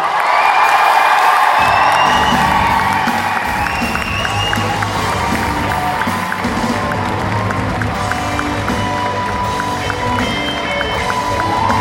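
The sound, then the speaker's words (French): An audience applauds and cheers at an inauguration ceremony, a loud, dense, continuous roar of clapping and shouting with some whistle-like tones running through it. “Je vous demande un tonnerre d'applaudissements pour Richard Dean Anderson.”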